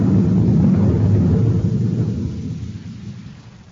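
A spacecraft landing on Mars comes through as a loud, deep roaring rumble. It holds steady at first, then fades away over the last two seconds.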